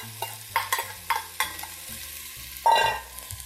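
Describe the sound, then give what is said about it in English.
Minced ginger and scallions frying in hot oil while being stirred: several sharp scraping strokes over a low sizzle, followed by a louder, longer burst of hissing sizzle near the end. “Here goes my minced ginger. Stir that up. Get it good and cozy with the oil. Here are my scallions.”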